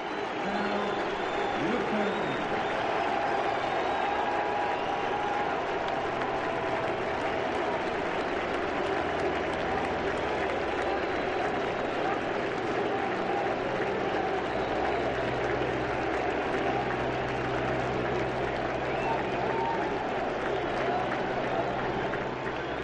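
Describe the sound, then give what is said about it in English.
Thunderous crowd ovation for Cal Ripken at an Orioles baseball game in the bottom of the ninth inning: a dense, steady roar of cheering and applause that holds at full strength for the whole stretch. “Cal Ripken is getting a thunderous ovation. Ladies and gentlemen, just listen.”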